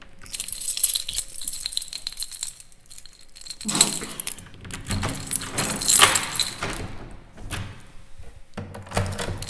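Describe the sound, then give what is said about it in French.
Keys jangle and locks clatter as premises with many locks are locked up. There are many bright metallic jingles in uneven bursts, some louder clunks of the locks, and no talking. “C'est fermé. Il y a beaucoup de verrous parce qu'on a beaucoup de choses à cacher.”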